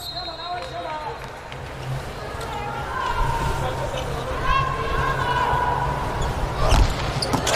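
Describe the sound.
A volleyball serve is struck during a match, a sharp ball impact standing out over continuous crowd hubbub and chatter.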